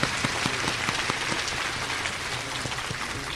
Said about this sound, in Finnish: niin me annamme hänelle kunnon aplodit nyt